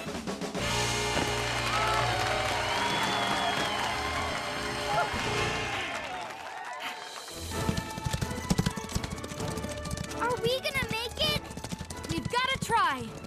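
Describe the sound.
Horses' hooves clip-clop in a steady rhythm beneath music, with people talking over them. Near the end the hoofbeats turn sharper and more pronounced.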